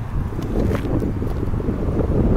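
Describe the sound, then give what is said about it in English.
Wind buffets the unshielded microphone of a Roland R-05 portable digital audio recorder, producing a continuous low, rumbling roar that swells slightly and stays loud throughout. “Wind is not... There it is. There's the wind. All right. So, you hear that?”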